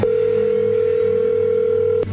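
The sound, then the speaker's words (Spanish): A steady telephone dial tone holds one constant pitch, continuous and alone, as a phone line is opened to dial a number again. It breaks off briefly near the end. “Pues, márquenle otra vez aquí. Ok. Ya colgó, ¿no? Sí, hace ratito. Vamos a marcarle de nuevo.”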